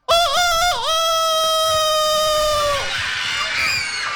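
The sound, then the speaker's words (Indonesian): A chicken call rings out: a loud, strained tonal cry that opens with a couple of short wavering notes, holds one long steady note and then drops, followed by rougher trailing noise. “Kalian kok tahu suara ayam? Hah? Kok tahu suara ayam?”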